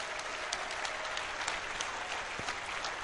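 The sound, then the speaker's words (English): Audience applause for the staff at the DEF CON 13 hacker convention: a steady, dense wash of many hands clapping at once, holding an even level throughout. “If you're a staff member at DEF CON 13, please stand up, wave your hands, and let's give them a round of applause.”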